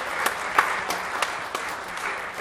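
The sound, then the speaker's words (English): Congregation clapping during a church service, a steady, dense patter of many hands with a few sharper claps standing out, continuing without any voices. “Clap.”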